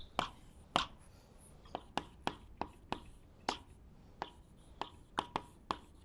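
Pen or chalk strokes of writing on a board during a lecture, a faint series of about a dozen quick, irregular taps and scrapes with short pauses between strokes and no talking.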